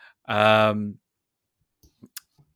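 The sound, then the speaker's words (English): A mouse clicking through slides: a few short, sharp, quiet clicks spaced apart in near silence, following a brief voiced sound at the start. “All right, maybe we'll just break it down. We'll just click through.”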